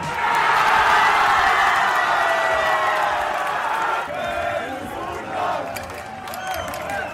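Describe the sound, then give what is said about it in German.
Football fans in Leipzig cheer Germany's World Cup win with a loud, sustained roar of many voices. After a few seconds the roar eases into scattered whoops, shouts and crowd chatter. “Überall wurde gejubelt über den Sieg unserer Fußballnationalmannschaft. In Leipzig klang das dann Samstag so.”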